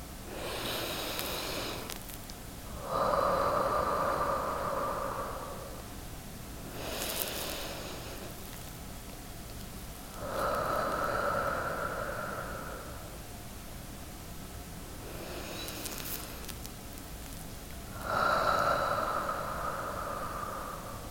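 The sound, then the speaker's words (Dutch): Three slow breaths drawn in through the nose and let out through the mouth during a calm guided breathing exercise. Soft airy hisses recur at an unhurried, even pace, with steady tones sustained between them. “Adem rustig 3 keer in door je neus en uit door je mond.”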